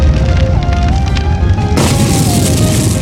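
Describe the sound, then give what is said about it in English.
A fire attack effect in a video game battle: a sudden whooshing, fiery burst about halfway through, over steady sustained game tones. “Fo Lavalin used fire.”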